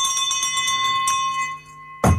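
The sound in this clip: A chairman's hand bell is rung to open a parliamentary-style meeting: several quick metallic strikes over a bright, sustained ringing tone that slowly fades. A short, dull low thud comes at the end, and no one speaks.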